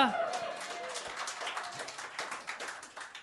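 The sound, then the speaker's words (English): Scattered applause from part of an audience, a thin, uneven patter of claps that carries on steadily with some talk mixed in. “I noticed only a third of the room clapped, that's fine.”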